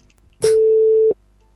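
A telephone line rings as a call is placed, heard as a single loud, steady mid-pitched tone lasting under a second and cutting off cleanly into quiet.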